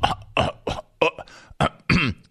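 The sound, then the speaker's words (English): Repeated throat clearing from a man: a quick series of short, harsh, voiced bursts packed into a couple of seconds, each one abrupt and fairly loud, with no talk around them. “the constant and multiple throat clears are absolutely incredible”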